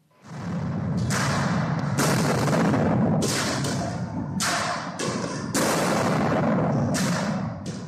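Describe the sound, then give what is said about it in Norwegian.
Gunfire and tear gas launcher shots ring out inside a smoke-filled mosque with heavy pillars and arches as police disperse worshippers: several sharp bursts rise above a loud, continuous rumbling din. “skarp skyting inne i Al-Aqsa-moskeen. Røyk og støv fyller rommet med de store, tunge søylene og buene oppe på veggen. Israelske politifolk sprer palestinere med tåregass.”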